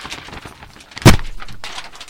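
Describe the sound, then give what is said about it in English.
One heavy thud as a large, person-shaped burlap sack is dropped onto the floor. A single sharp impact with a brief decay stands out from a quiet background. “they dropped a large burlap sack right in front of me.”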